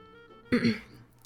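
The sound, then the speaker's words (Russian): A single short throat-clearing cough rises out of a quiet pause, a rough voiced burst lasting under half a second and then fading. “Сделав небольшую паузу, Субару откашлялся и спросил.”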